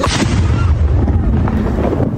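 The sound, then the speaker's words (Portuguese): A police bomb squad's controlled detonation of a suspected bomb in a university parking lot: a loud, deep rumbling roar that fills the whole clip, with no clear separate blast at the start. “o esquadrão de bombas isolou a área e, em seguida, detonou o artefato com segurança. Vai haver uma explosão! Vai haver uma explosão!”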